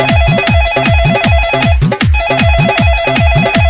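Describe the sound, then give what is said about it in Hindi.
A phone's ringtone plays loudly without voices: a repeating electronic melody with a steady, bouncing beat and a brief break midway. “Hello hello Baba phone उठाओ”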